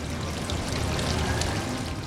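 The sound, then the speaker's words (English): Water bubbling and splashing from an ornate indoor fountain at Caesar's Palace in Las Vegas, a steady, full rushing wash that stays even throughout with no voices. “35 miles away in Las Vegas, water from the lake bubbles up from an ornate fountain inside Caesar's Palace.”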